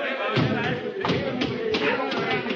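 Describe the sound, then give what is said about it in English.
Heavy thumps as a person drops about six feet onto a hatch, a few dull impacts standing out from a steady rushing noise. “Drop to the hatch. It's about 6 feet. It's clear. Hurry up. What? Here I go.”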